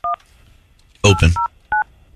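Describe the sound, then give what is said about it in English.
A telephone number is dialed to reach a dentist's office: three short touch-tone beeps spaced by pauses, with a brief louder burst of noise between the first and second. “I'm trying to call Dr. Childers, a dentist that we all know, to see if I can get him on the phone.”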